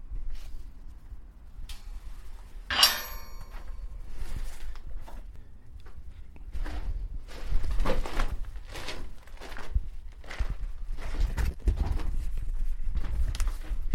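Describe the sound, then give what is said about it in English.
Footsteps walking down a steep set of stairs into a small crypt corridor: many uneven, knocking steps with irregular spacing and varying loudness, including a sharper clack early on, with no voices. “I've just walked down a steep set of stairs, through a gate and into a small, dimly lit corridor.”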